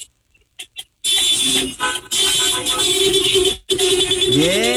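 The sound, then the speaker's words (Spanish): Car horns honk together from vehicles lined up in a restaurant parking lot. A loud, overlapping blare starts after a second of near quiet, holds steady with two brief dips, and ends with a wavering, rising tone. “A ver, toquen el claxon todos los que están formados, a ver, toquen el claxon”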